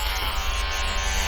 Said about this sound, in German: Da muss ich an die Maschine. Meine Barthaare sind zu dick.